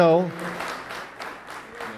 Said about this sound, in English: That applause is for you.